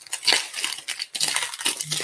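Crinkling and tearing of trading card pack packaging, a dense run of crisp plastic rustles and rips lasting throughout, with a brief lull midway before the crackling resumes.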